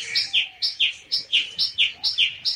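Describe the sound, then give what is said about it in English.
Bird song: bright, high chirping notes repeated rapidly in an even, steady rhythm, each pairing a sharp upper tweet with a slightly lower one, many in a row with no talk. “And Darzi filled his throat and sang.”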